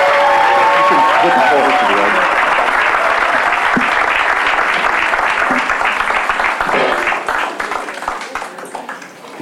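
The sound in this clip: A church audience applauds to welcome a guest preacher. The clapping is loud, dense and sustained, then thins and tapers off toward the end.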